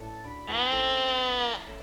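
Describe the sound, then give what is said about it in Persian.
A sheep bleats once, a loud, sustained nasal cry about one second long, standing alone over faint background noise. “گوسفند رو نشون بده.”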